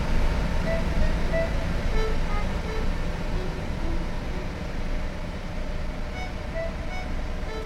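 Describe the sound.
Steady engine and road rumble inside a moving bus, a continuous low, broad drone with no distinct separate events.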